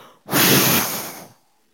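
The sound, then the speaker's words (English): One forceful exhaled breath, blown out by a person imitating Jesus breathing on his disciples: a loud, breathy rush of air lasting about a second, heard alone. “And he breathes on them. I don't know how he did it, so I can just do it however I want.”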